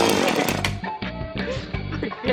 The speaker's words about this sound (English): Just chainsaw! Yeah, chainsaw!